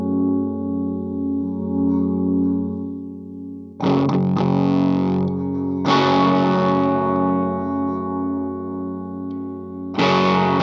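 A B.C. Rich Mockingbird electric guitar through heavy distortion and chorus effects rings out as a thick sustained chord, then three more loud, fresh strums cut in, each decaying into a buzzing, droning tail.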